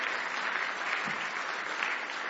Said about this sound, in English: Give the Lord another big hand clap of praise tonight if you love Him.